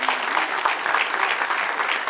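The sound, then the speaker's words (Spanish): Audience applause breaks out in an audience during a Spanish-language church sermon: a steady, dense wash of clapping hands that holds at an even level for about two seconds. “Denle un aplauso a Dios, muy lindo.”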